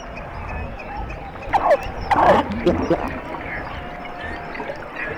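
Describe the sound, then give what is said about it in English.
Underwater sounds beneath sea ice, picked up by a hydrophone a few feet below the ice: squeaks, whoops and chattering calls cluster in the middle over a steady hiss, including quick rising and falling whistles. “What we literally did was drop the hydrophone down a few feet below the ice. It's like you're in a rainforest. There's this chattering and whoop and squeaks and pops and whee and ah,”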